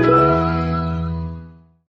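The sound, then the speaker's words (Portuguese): A radio show jingle for a questions-and-answers segment sounds as one short, rich musical tone that rings out and fades away smoothly in under two seconds. No voices are heard. “a gente vai pedir para ela chamar a nossa vinheta de perguntas e respostas.”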